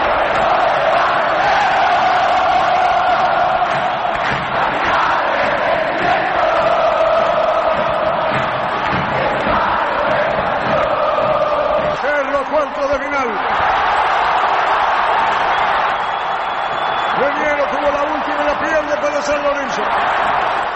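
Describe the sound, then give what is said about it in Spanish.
Supporters of the azulgrana side roar and cheer in the final minute of a basketball game, a dense crowd noise that stays loud throughout while a man talks over it. “El público testimonia con una emoción, con un festejo que será imborrable por lo que fue el partido.”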